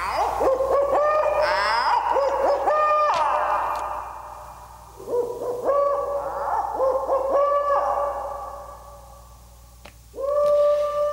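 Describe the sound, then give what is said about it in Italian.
Owl hoots sound in a series of hollow, tonal calls with ringing, echo-like tails, repeated several times with short gaps and heard alone without any voices. “al Fondo Monetario Internazionale va il nostro gufo.”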